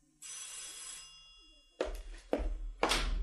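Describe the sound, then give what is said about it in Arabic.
A doorbell rings at a home's front door, a bright sustained electric ring lasting about a second, followed after a pause by three heavy thuds with no voices. “في يوم لقيت الجرس بيضرب.”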